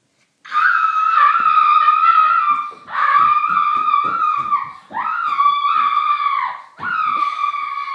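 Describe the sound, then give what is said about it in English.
A woman screams in an office, with four long, shrill, sustained cries separated by brief breaks for breath, loud and alone. “That was the noise of a screaming lady in the office.”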